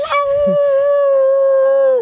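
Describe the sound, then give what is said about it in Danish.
A human voice imitates a wolf howling: one long, steady, held tone lasting about two seconds that sags and cuts off at the end. No other voices are heard. “Så hvis der er en ulv der reagerer på sine instinkter med at hyle, så kan man jo gætte, hvem der har lagt stemme til.”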